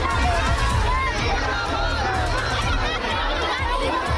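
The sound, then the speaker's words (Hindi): Protesters from the BJP women's wing shouting slogans outside a Congress party office, many raised voices over a constant crowd din with no pause. “BJP का महिला मोर्चा राहुल गांधी और प्रियंका गांधी के खिलाफ नारे लगा रहा है।”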